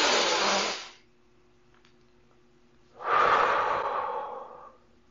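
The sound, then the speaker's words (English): A slow, deep breath taken during a calming exercise against anxiety: a long, rushing inhale, a quiet pause, then a long, fading exhale. “And then you take a deep breath.”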